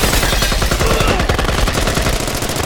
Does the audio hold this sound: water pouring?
no